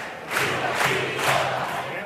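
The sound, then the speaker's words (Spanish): Audience cheering and shouting at the Gran Teatro Falla, a sustained crowd roar that swells a few times without letting up. “Mira, mira, mira el público, cómo les premia.”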